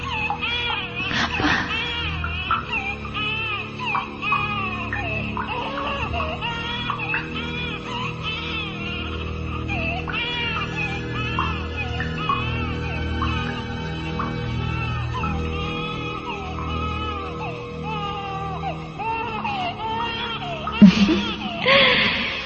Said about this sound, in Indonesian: Cup sayang, cup. Oh, jangan menangis ya.